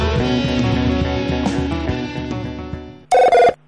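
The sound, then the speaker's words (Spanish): A mobile phone ringtone cuts in near the end: two short, loud electronic ring bursts that clearly stand out after a sustained tonal background fades down. “Estoy escuchando un celular de fondo.”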